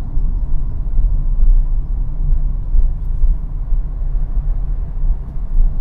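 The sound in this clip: Inside a car moving through stop-and-go traffic, a low, steady engine and road rumble drones on with small swells in loudness and no voices.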